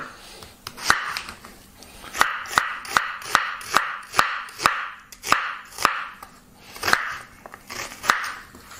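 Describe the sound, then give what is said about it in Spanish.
A knife chops two sweet onions in a steady run of many sharp knocks on a board, evenly spaced with short pauses, over a faint background hiss. “ahora vamos a picar 2 cebollitas. Estas son cebollitas dulces de estas.”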